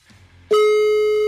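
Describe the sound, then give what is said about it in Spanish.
A steady telephone line tone sounds as a call is being dialed. It starts abruptly after a faint low murmur and then holds loud and unbroken at one pitch until the end. “Ok. Ya está. Estamos marcando ya.”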